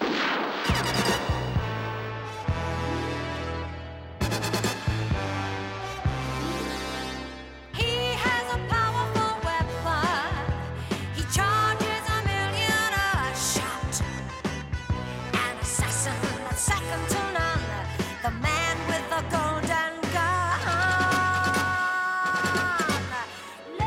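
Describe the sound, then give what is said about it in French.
Sharp gunshots ring out in a movie pistol duel, a golden pistol against a Walther PPK. The bangs come at intervals and sit under loud, continuous orchestral music. “Le duel à mort avec double 07. Mon pistolet d'or contre votre Walter PPK.”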